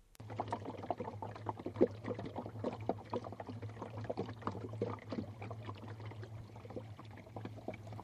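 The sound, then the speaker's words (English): Water laps against the hull of an angling boat on a trout lake in County Waterford, Ireland. Many small, irregular splashes and slaps stay faint throughout over a steady low hum. “That's the sound of the water lapping against an angling boat.”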